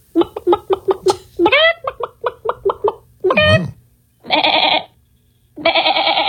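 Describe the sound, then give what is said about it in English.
A person imitates farm animals with their voice: a rapid run of short, goat-like bleating syllables and a squeaky rising call, then a few longer, drawn-out bleats, each standing alone with pauses between. “last week we did a whole big show bit where we were making farm animal noises on the show, right? Mm-hmm. So we were a barnyard, absolutely. Exactly. So one of our listeners was actually listening and decided to do their own version of that.”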